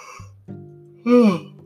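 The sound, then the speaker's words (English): A person yawns, a low voiced hum that swells into a louder, breathy vocal sound with falling pitch before trailing off quietly. “Why am I yawning so much?”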